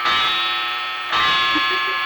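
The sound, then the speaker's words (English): A clock runs with a steady, sustained metallic ringing tone that stays loud and continuous. The sound briefly dips about midway, then resumes. “Yeah, my clock's dragging on you.”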